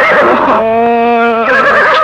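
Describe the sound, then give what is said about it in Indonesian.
A horse neighs in wild, rainy forest terrain, a loud, strongly pitched whinny that holds for about a second amid rougher, breathy sound on either side. “Kamu lagi teriak-teriak aja, kuda kamu.”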